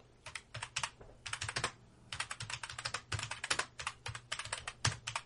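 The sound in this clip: A note being typed on a computer keyboard: quick bursts of crisp keystrokes with short pauses between clusters, steady and moderately loud throughout.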